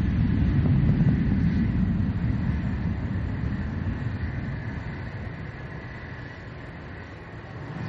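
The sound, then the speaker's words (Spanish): An airplane moving away near an airport makes a broad, low rumbling roar that starts loud and gradually fades. “Junto a un aeropuerto, John mira serio un avión que se aleja.”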